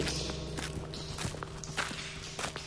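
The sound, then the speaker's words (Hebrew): Footsteps of people walking through a tunnel sound as many irregular, soft treading steps that overlap and shuffle at a fairly quiet, steady level. “כבר יותר משעה שאנו צועדים כאן במנהרה.”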